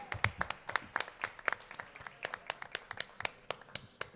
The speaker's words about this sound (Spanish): Un aplauso para esta gente.